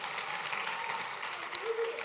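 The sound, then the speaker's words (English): Congregation applauding during a church service, a dense, steady wash of hand clapping that holds at an even level for about two seconds. “put those two anointed hands together one more time and give Jesus the greatest hand clap you've ever given anybody”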